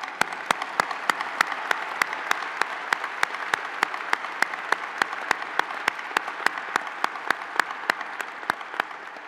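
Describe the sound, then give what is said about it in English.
Applause at a university faculty ceremony: a steady wash of clapping with sharp, evenly spaced clicks throughout, holding a constant level for the whole stretch. “Let's give them applause.”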